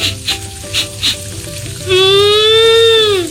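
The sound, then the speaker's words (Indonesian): Food sizzles as it cooks in a pan, a meal of tofu, tempeh, clear vegetable soup and shrimp-paste sambal. The frying noise is loud and steady, with a few louder pulses early on, and a sustained whining tone joins partway through. “Masak apa nih, Ma? Ada tahu, ada tempe, plus sayur bening sama sambal terasi.”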